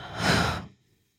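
A deep breath during a guided breathing exercise: one loud, airy exhale lasting about half a second, then quiet, with no talk.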